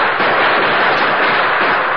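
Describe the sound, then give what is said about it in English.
Gunfire from a gang shooting at a darkened house comes as a dense, continuous crackling volley. Shots blur together into a loud, muffled rattle with no clear gaps and no voices. “You better hug the floor. They're shooting high.”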